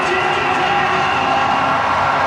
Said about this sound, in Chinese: 向球迷致意，拼尽了全力了， 接受全场球迷的掌声